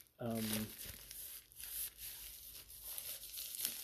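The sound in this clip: Crinkling, tearing and rustling of a bubble-wrapped padded envelope package being handled, in a continuous irregular stretch after a brief voiced sound at the start.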